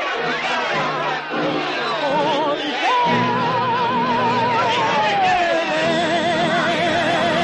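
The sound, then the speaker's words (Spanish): Rowdy audience chatter in a 1955 Western film scene: a dense, continuous babble of many voices, with a woman's sung melody rising above the crowd. “El público se alborota mientras ella sigue cantando entre ellos.”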